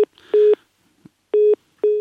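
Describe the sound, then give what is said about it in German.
A telephone rings with short electronic tone pulses at a steady mid pitch, each burst separated by silent gaps in a repeating on-off pattern. “Gut, jetzt läutet hier nochmal das Telefon.”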